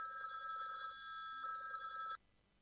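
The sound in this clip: A telephone rings on an outgoing call: a bright electronic trill with layered high tones sounds fairly quietly for about two seconds, then cuts off abruptly.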